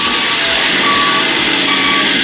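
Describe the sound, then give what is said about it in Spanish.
A truck whose brakes failed, at a crash scene, gives a loud, steady engine roar. Intermittent high-pitched beeps repeat over it. “Ese es el camión. Miren qué cerquita.”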